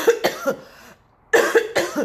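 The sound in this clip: An adult coughing fit as the throat suddenly acts up: six harsh, voiced coughs come in two clusters of three, separated by a brief silence, loud and on their own without talk.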